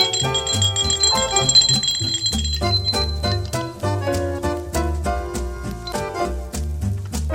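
A handbell rung as the first school bell on the first of September, with bright strikes repeated rapidly and loudly throughout over a dense shimmer of ringing overtones.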